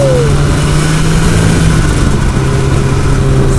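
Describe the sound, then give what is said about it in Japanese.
Engine of a scooter-like motorbike pulling away on a winding road, a loud, steady mid-pitched drone with a lower hum beneath it, continuous throughout with no talk. “モミの木坂の間を軽快に走ってまいります。”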